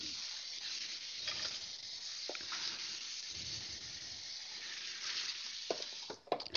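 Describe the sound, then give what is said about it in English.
Sizzling of large grade A eggs frying in a pan over medium heat: a steady, fairly quiet hiss runs throughout, with a few sharper crackles and pops near the end. “Now this is what I like doing, y'all. I'll, I'll cook up three or four of these eggs.”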